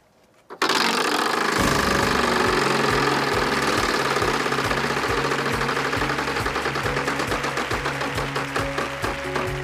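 A game show prize wheel spinning after a $1 million space replaced the $100,000 one. Its pegs clatter past the pointer in a rapid, steady stream of mechanical clicks that stays loud and continuous for several seconds.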